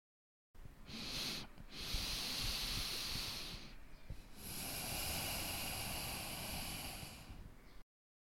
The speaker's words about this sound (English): Did you notice that I pause for a while in the beginning of my breath?